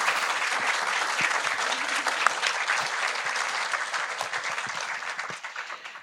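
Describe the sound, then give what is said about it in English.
Audience applause welcoming a panel to the stage at a talk on security: sustained, dense clapping from many hands, steady and loud for about six seconds before easing off slightly at the end. “Please give our fabulous panel a warm welcome.”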